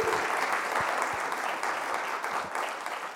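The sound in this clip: Audience applause welcoming a guest speaker: many hands clapping in a dense, even wash, loud and steady, easing slightly toward the end.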